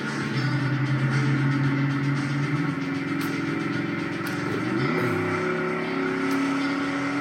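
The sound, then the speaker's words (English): A 1980s Camaro engine revs with a loud, continuous, buzzing drone. Its pitch shifts partway through, then settles into a steady roar. “Listen to that motor. So strong sounding. Vroom, vroom.”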